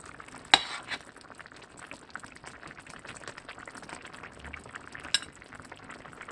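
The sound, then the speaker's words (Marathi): Soft stirring of tamarind water and tomato in a pan of cooking eggplant curry, a low scraping murmur with a couple of sharper clinks and a faint sizzle underneath. “चिंचगोळाचं पाणी टाकून घ्या आणि अर्धा tomato टाकते मी इथे व्यवस्थित mix करून घ्यायचं आहे”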